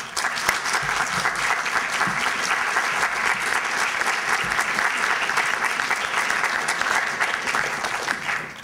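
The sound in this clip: An audience at a book talk applauds to welcome a speaker: dense, steady crowd clapping at a constant loud level throughout.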